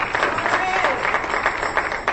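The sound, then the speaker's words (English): A church audience claps their hands in praise, a dense steady patter of clapping with voices mixed in. “Give the Lord a hand clap for that, everybody.”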